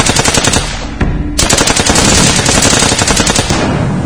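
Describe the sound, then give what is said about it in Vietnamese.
Rapid gunfire from an attack on a village, dense loud bursts of shots running almost continuously, with a brief dip before the firing surges again, and no voices. “Một phát súng nổ, một mồi lửa ném tung lên,”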